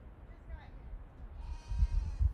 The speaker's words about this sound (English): All right, guys, my goats are out.